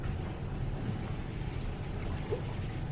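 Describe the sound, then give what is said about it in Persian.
Sharbat drink being poured, a faint, continuous liquid trickle and gurgle that stays even and soft for the whole stretch, with no voices over it. “میخوری شربت؟ بریز ببینم”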